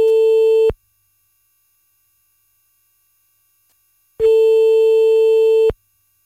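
A telephone ringback tone sounds while a call to a listener is being placed. A steady, clean, loud tone cuts off at the start, then returns after a silent gap as one longer burst with unchanging pitch.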